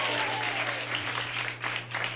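Audience applause for a bluegrass bass fiddle player being introduced with his band: a continuous, dense wash of clapping that holds steady throughout with no talk over it.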